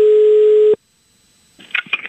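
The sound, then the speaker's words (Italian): Ringing on an outgoing telephone call: one steady, loud, low tone that lasts under a second and cuts off abruptly. Silence follows, then faint, clipped voice fragments. “Chiama Cappella! Adesso risponderà il signor Cappella e parlerà con se stesso.”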